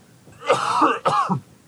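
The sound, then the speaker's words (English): Coughing and throat clearing: a rough, raspy clearing of the throat, then a short second burst after a brief break, loud and alone without speech. “I'm going to apologize for some coughing that I've been doing through this episode.”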